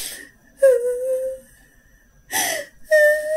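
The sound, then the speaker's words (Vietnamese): A woman crying and sobbing in a plaintive, aggrieved way: three drawn-out, wavering whimpering wails separated by breathy gasps and quiet pauses. “đang làm bình thường nghe tiếng khóc các bạn nghe.”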